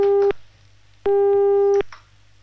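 Phone line tone after a call cuts off: steady, mid-pitched electronic beeps with a buzzy edge, the first cut short at the start, then a longer beep, separated by silence and a low hum.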